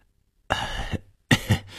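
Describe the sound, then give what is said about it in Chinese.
An old man gives an awkward cough: two rough, throaty bursts with a short gap between them, heard alone without talk. “李老头尴尬地咳了一声说”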